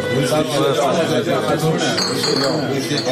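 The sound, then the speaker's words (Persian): Small glasses clink together in a toast, several bright, light clinks heard amid lively voices and chatter. “این استکان‌ها که با لفظ سلامتی به هم می‌خورند، سالانه جان صدها تن را در ایران می‌گیرند.”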